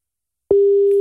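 Ringback tone on an outgoing phone call that goes unanswered: after half a second of silence, one steady low tone starts and holds unbroken to the end.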